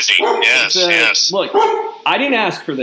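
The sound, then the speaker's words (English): Dog barking and yipping repeatedly while a sandwich is being made, the sharp barks mixed with and partly under a man talking throughout. “that's the sound you're hearing is me making a sandwich and Archie barking”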